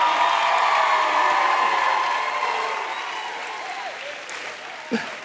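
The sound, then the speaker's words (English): A crowd at a gathering gives sustained applause to men who have been asked to stand. The dense, loud clapping slowly fades, and a single sharp thump sounds near the end. “I mean, come on now.”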